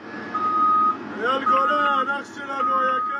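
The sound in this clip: Reversing beeps from heavy machinery demolishing a house in Khan Yunis in the Gaza Strip: a steady high-pitched beep that repeats under engine noise, with people talking over it.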